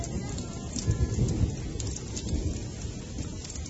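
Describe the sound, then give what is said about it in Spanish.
Heavy rain pours steadily, with a deep roll of thunder swelling early on before the dense patter continues at a moderate level. “Llueve mucho. Llueve mucho y retumba. Retumba por fuera y por dentro”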